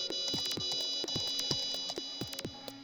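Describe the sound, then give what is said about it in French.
An electronic alert signal sounds alone: a steady bed of high tones with a rapid, repeating train of descending chirps laid over it, holding a constant level throughout. “Et cette alerte, c'est quoi”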